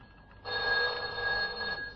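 A telephone bell rings in a workplace: one bright, steady, high-pitched ring lasting just over a second, heard alone against a quiet background.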